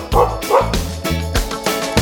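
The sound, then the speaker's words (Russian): A dog barks in a rhythmic series of short, loud yaps over musical accompaniment. “собака отвечает просто гав.”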